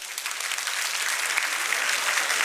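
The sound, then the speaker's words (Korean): An audience applauds their partners during a group session, with dense, steady clapping that holds at an even level from start to finish. “짝꿍한테 박수 한번 쳐주세요.”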